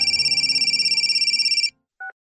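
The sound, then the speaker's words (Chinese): A mobile phone rings with a rapid, pulsing electronic ringtone that repeats many times at a steady rhythm, then cuts off abruptly, followed by one short electronic beep. “手机响”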